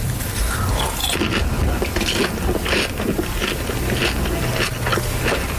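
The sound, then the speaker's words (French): Crunchy popcorn being eaten close up, with steady crisp chewing and biting that runs continuously and fairly loud throughout. “En vrai, je fais ça parce que je voulais vraiment goûter ton popcorn.”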